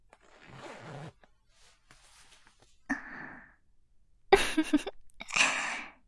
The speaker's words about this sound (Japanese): それじゃ、ファスナー失礼するわね。